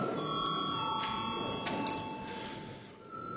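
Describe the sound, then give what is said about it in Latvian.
A call bell rings in a parliament chamber before a vote: a steady electric ringing with several sustained tones that holds through the whole stretch at a moderate level, with no talk over it. “lūdzu zvanu”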